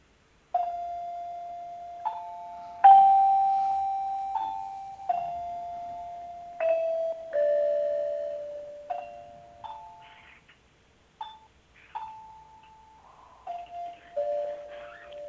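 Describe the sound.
A radio interval signal chime plays a slow melodic run of many bell-like tones. Each note rings and decays before the next, with a short gap partway through and no voices.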